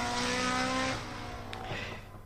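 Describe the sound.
A rally car engine roars loudly at Rally Barbastro in Alto Aragón, strong at first, then easing into a lower, rougher drone.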